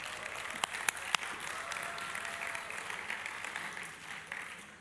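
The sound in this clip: A church audience applauding the worship team, with steady, fairly faint applause throughout and a few sharper single claps standing out early on.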